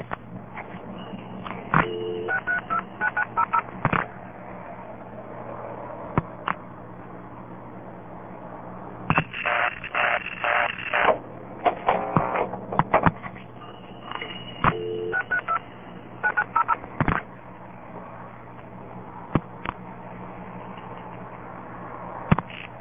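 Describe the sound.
Telephone number 632-9900 being dialed with tones: short, bright tone bursts arrive in a few quick clusters separated by pauses, over a steady low hum.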